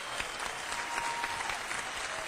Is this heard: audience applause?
yes